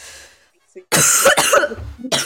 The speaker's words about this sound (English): I'm not dying, I'm just coughing.